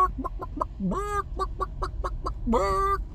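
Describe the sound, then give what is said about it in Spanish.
A chicken clucks in a rapid run of short, clipped clucks, twice breaking into longer, drawn-out squawking calls with a rising-then-falling tone. The clucking is loud and alone, with no talking. “Y Pollo Picante habla pollo. Pollo Picante habla pollo muy bien.”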